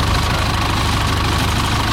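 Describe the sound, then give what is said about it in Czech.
An old Zetor tractor's engine runs while it tows an aircraft, a loud, steady low rumble with a regular knocking pulse that holds without a break throughout. “Poslední desítky metrů obstarává postarší traktor Zetor, který Albatrose odtáhne do areálu Leteckého muzea ve Gbelích na jeho nové místo.”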